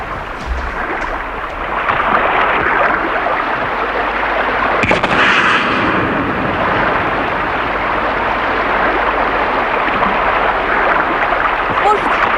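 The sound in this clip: A flare gun fires once with a single sharp report over a steady rushing background, while people talk nearby.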